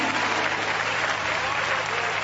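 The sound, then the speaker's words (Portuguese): A church audience applauds at a Pentecostal service. The clapping is a dense, even wash that holds steady from start to finish. “Essa igreja dá uma salva de palmas ou não dá? Dá! Para Jesus, aleluia!”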